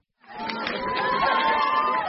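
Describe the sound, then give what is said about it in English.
A crowd of relatives of those killed in the early-1990s war with Georgia cheers and shouts in Abkhazia's capital, greeting Russian Prime Minister Putin with a hero's welcome; a steady, dense swell of overlapping voices. “The Russian Prime Minister was given a hero's welcome here by relatives of those killed in the first war with Georgia in the early 1990s.”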